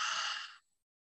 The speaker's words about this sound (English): And we're going to take a deep breath in through the nose. And then a deep breath out through the mouth.